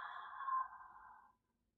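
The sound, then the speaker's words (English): A slow open-mouthed exhale with the jaw dropped, a soft breathy whoosh that holds steady and then fades out after about a second, followed by near silence. “Exhale out an open mouth, drop the jaw, breath of release.”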